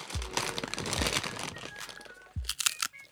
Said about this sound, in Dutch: Wat zit je nou te eten? Ik had een beetje trek. Chocoladekoekjes.